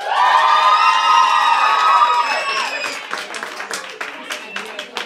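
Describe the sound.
An audience cheers, screams and whoops as a performer is welcomed at a show in New York City. A loud, dense roar of voices peaks early, then gives way to scattered clapping and fading shouts.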